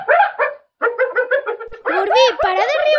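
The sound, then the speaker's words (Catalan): An attacked hyena calls in rapid bursts of high, yelping barks with wavering pitch that sound like human laughter. The calls are loud and run almost continuously, with one short pause early on. “És una hiena atacada. Quan lladren, el soroll recorda un riure humà.”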